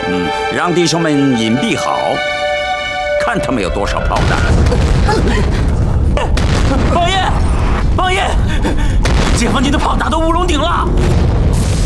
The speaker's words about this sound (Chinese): 解放军的炮打到乌龙顶了